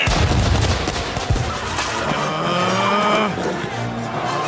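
Gunfire in a Spanish conquest scene set in 1519: a loud, dense, sustained burst of many overlapping shots and crackles. A whining tonal sound runs through the middle of the burst.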